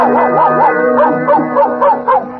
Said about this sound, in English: presenting that famous canine vassal, Pluto the Pup